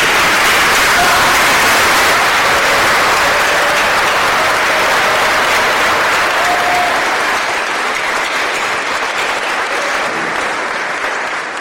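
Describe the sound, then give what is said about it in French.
A crowd gives a standing ovation with dense, loud clapping sustained without a break for about eleven seconds, easing slightly toward the end. “je vais vous demander de vous mettre debout et de faire une ovation spéciale pour Mika”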